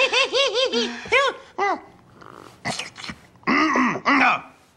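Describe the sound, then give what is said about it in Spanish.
Throat clearing from someone with something stuck in the throat, heard as many harsh voiced hacks and coughs in uneven bursts, some close to laughter. “Parece que tengo algo atorado en la garganta.”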